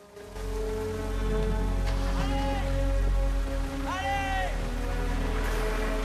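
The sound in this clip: Steady rain falls outside a hotel as a bus pulls away, a dense continuous hiss filling the whole clip with a couple of brief whining tones rising over it.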